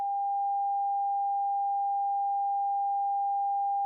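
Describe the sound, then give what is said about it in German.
A single quiet, steady pure tone at a moderately high pitch holds unchanged for several seconds, with no other sound around it. “Hören wir zunächst einen leisen Ton.”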